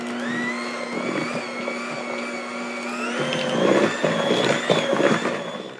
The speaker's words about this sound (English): So we're going to beat in the peanut butter now, the 1 cup.